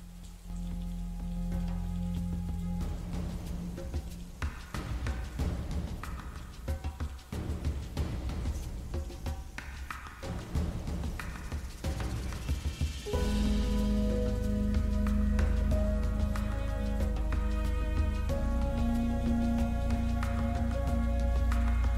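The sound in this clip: Rain falls in a steady, hissing patter through the whole clip, under sustained background music that grows fuller partway through.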